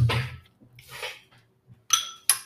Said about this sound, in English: I'm going to get a couple scoops for myself.